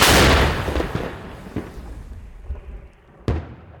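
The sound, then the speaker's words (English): A donated Paladin howitzer fires American rounds: a loud booming blast opens and decays into a long rumble, fainter thuds follow, and a second sharp report cracks near the end. “Some units had enough shells, they said. These firing American rounds in a donated Paladin.”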